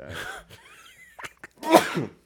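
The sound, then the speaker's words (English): A person sneezes once, loudly, after a few soft breathy catches of air, the burst sharp and noisy before trailing off. “I gotta sneeze”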